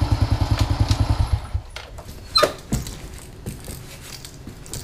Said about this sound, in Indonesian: Kae ono bocah boncengan motor moro.